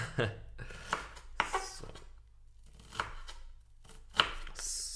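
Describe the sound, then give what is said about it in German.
Sharp knife chopping onions on a board: a few crisp, uneven knocks with pauses between strikes and faint rustling in the gaps. “deswegen muss ich mich auf scharfe Messer verlassen. Bis jetzt geht's noch. So, jetzt sind wir bei Zwiebel anderthalb.”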